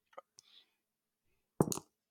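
A die is rolled during a tabletop role-playing game: a few faint, sharp clicks, then a short, louder clatter of several quick knocks that soon dies away.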